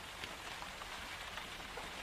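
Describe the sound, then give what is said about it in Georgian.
Rain falls outside as a steady, even hiss of many drops with no breaks and no voices, a soft, constant wash of sound. “გარეთ ისევ წვიმს და ჯერ ადრე.”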